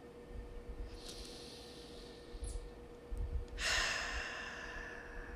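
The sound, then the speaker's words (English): Deep, slow breaths taken as a calming pause: soft, airy rushes of breath, about two of them, each swelling and then fading. The sound is faint and there is no talking. “take a moment of stillness, of calm, to take a couple deep, full, slow breaths.”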